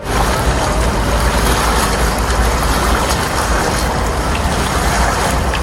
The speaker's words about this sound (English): In the north of Iceland, this powerful waterfall forms part of the Skjálfandafljót River.